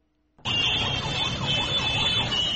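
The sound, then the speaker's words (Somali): Horns from various vehicles jammed on a main road in Mogadishu blare together, starting abruptly after a short near-silence and then sounding continuously, with a loud, warbling, siren-like tone. “hoonka gaadiidka kala duwan ee aad maqlaysaan waa ciriiri ka taagan mid ka mid a wadooyinka halbowlaha u ah isu socodka dadka iyo gawaarida Muqdisho”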